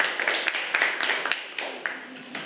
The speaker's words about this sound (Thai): ปรบมือให้กับกลุ่มที่3หน่อยค่ะเยี่ยมมากๆค่ะ